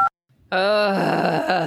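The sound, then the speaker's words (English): An audience groans together after a brief silence, producing a loud, drawn-out, voiced moan that holds steady for just over a second. “Yeah, everyone give a nice groan.”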